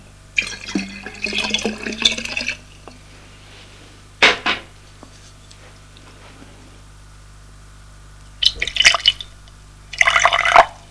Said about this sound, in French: Ils s'assoient. Henri sert à boire.